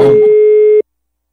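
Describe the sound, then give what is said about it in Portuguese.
A telephone call tone: a brief burst of noise, then a single loud, steady pure beep lasting under a second, followed by silence. “eu vou ligar agora pra Clara”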